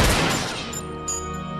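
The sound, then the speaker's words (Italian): Gunfire as armed men shoot at a car stopped in the road: loud, dense shots with a harsh attack that settles into a sustained ringing tail. “Scendono alcuni uomini armati che si avvicinano all'auto degli italiani e sparano prima a Miran una sola volta, ma precisa, e poi a Ilaria due colpi, in sequenza.”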